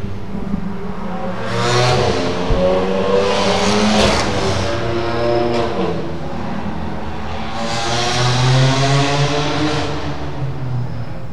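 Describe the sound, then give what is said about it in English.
Race cars roar around the Indianapolis Motor Speedway track, loud engine whines swelling and fading as cars rev and pass, with continuous overlapping engine noise and no talk. “Cue the racetrack. I wish I had that kind of power. We almost get used to the noise”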